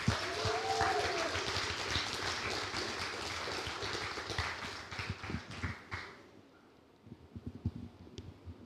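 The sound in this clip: A church audience applauds to welcome a young leader who is about to preach, a dense, even clatter of clapping that thins out and stops after about six seconds, with voices heard at the start.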